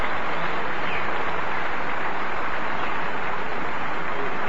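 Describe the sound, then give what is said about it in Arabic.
A concert audience applauds Umm Kulthum as the stage curtain rises, a dense, unbroken wash of clapping that stays loud and even from start to finish. “هذا تصفيق يستقبل به الحاضرون هنا كوكب الشرق.”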